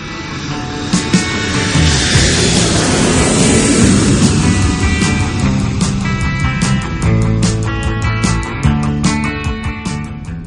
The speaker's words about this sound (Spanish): Abróchense los cinturones, que despegamos de nuevo.